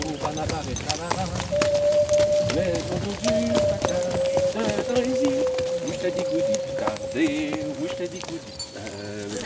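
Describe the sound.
Horses of the Vercors walking uphill on a route from Engins to Léoncelle, their hooves giving a steady, busy clip-clop throughout beneath a voice speaking over them.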